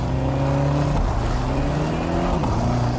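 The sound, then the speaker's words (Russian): A car engine runs loudly and steadily as the car turns sharply and drives off in pursuit of a jeep. Its low, humming drone shifts pitch a couple of times, rising and falling as it revs, with no pause. “Багор бросается к своему автомобилю, запускает двигатель и, резко развернувшись, бросается в погоню за джипом.”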